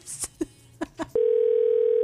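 Telephone dial tone on a station phone line as a call is being placed: a few short clicks and beeps, then a steady, unbroken low tone that holds alone to the end.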